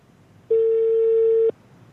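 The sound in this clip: A telephone call's ringing tone sounds once as a single steady, mid-pitched electronic tone lasting about a second, starting and stopping abruptly, with nothing else around it.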